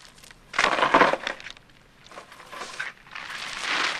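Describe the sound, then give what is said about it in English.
Crisps crushed messily by hand directly into bread for a sandwich, heard as a few crinkly, crackling bursts, the first the loudest and the later ones softer. “She then crushes up some crisps messily directly into the bread.”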